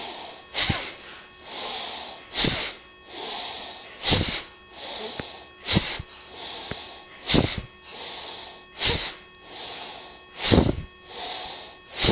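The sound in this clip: A breathing exercise with sharp, forceful exhales about eight times in a steady rhythm, each followed by a softer, longer inhale.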